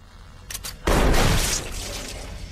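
Shotgun blasts in a film scene: a few quick sharp bursts lead into one loud, heavy blast whose roar hangs for a moment and then slowly fades.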